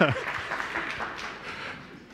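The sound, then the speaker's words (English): Round of applause from a gathered group after someone is thanked: a short burst of clapping that starts over a voice and thins out as it continues. “Round of applause.”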